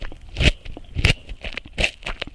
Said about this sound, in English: And this is a crunchy carrot.